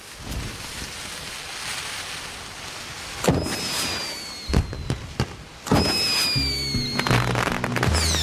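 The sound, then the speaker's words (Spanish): Fireworks rockets launched from tubes at a town square display: after a quiet stretch, several sharp thumping launches burst out, some trailing thin high whistles, ending in a dense run of crackling bangs. “Matías mete cohetes en los tubos.”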